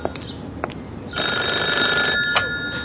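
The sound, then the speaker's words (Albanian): A telephone rings with a loud, steady electronic bell tone that starts after about a second of near quiet and continues to the end, with a few faint clicks before it. “Telefonat për ty”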